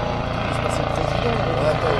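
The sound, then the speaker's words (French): A helicopter passing near an airport gives a steady, loud, droning rotor throb with a low pulsing beat that stays level from start to finish. “C'est un hélicoptère qui passe. Tout à l'heure, tu vois, on va le laisser passer. On est près de l'aéroport du Bouquet.”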